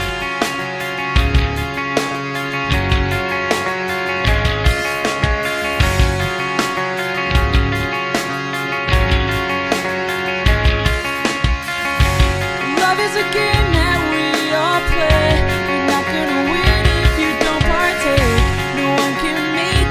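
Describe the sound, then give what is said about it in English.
An unreleased, unnamed demo track by a band, meant for their new record: steady pounding beat under dense layered instruments, loud and unbroken throughout. “This is one of the demos that's going to be on the new record.”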